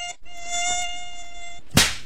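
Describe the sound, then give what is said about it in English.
An Aedes mosquito buzzes in a thin, high, steady whine for about a second and a half, then a single sharp, loud hit cuts in just after the buzzing stops. “no stagnant water around your house that could lead to the breeding of Aedes mosquitoes”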